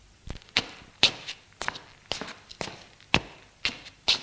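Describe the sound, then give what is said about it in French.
A man's footsteps as he paces nervously: many steady, sharp steps in an even rhythm, fairly soft and alone, with no talk. “Il marche nerveusement.”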